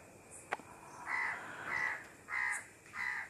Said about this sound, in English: again, see those birds, the sounds, early bird.